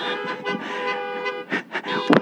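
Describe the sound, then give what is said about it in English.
Car horns honking together at a church service, a dense chorus of sustained, overlapping tones with a few sharper blasts near the end. “Would you guys honk your horn for them since you can't really clap?”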